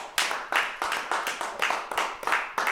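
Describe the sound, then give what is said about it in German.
Clapping serves as applause in a German radio drama of a classical play. Many sharp, separate claps fall in a loose, fairly even rhythm, each with a quick attack and short decay, and no voices are heard. “Applaus.”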